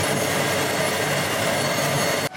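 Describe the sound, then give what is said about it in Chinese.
A generator set heard through a listening rod gives a dense, steady, rushing rumble like flowing water. It stays loud and even throughout, then drops off abruptly just before the end. “我刚才用那个听音棒听了一下，咱们的那个发电机组的那个声音好像是轰隆隆的水的声音”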